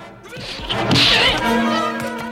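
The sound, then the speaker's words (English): Sharp swishing whacks of a punch landing during a fistfight between two men, a loud cluster of blows followed by a steady low hum. “The man punches out.”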